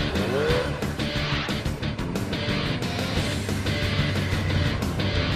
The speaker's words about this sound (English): this bike weighs almost 400 pounds. So if you don't keep giving it gas, you're going to tip over.